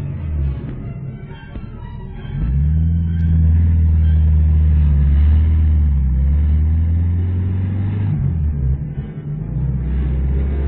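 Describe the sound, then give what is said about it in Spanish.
A pickup truck engine grows from a quieter rumble into a loud, steady, low drone as the truck accelerates uphill along a ravine, dipping briefly near the end. “Puso en marcha el motor y, haciendo crujir la caja de cambios, aceleró quebrada arriba en dirección al poblado.”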